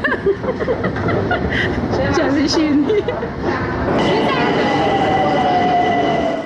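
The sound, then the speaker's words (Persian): A Tehran metro train rumbles along with a steady roar and a tonal whine, while people talk over it throughout. “در مترو کودکان دستفروش هم کم نیستند.”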